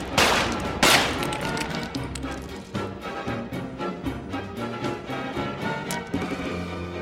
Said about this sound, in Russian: Чекан останавливается, вскидывает пистолет. Стреляет по направлению, откуда, как ему кажется, слышен голос Штехеля.